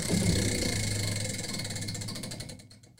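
A prize wheel spinning, making a rapid stream of ticking clicks over a whirring rush. The clicks gradually slow and thin out as the wheel winds down and fades.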